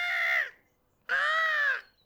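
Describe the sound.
A gull calls high in the air with two long, harsh, wailing cries separated by a short pause. The second cry lasts longer, and both are clear with nothing else around them.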